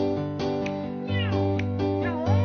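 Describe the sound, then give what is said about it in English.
A pet cat meows repeatedly in a home where its owner plays piano, a few drawn-out tonal cries with rising and falling inflections that stay fairly loud and steady. “those are his cats that he owns. Two little putty tats that listen to him play the piano”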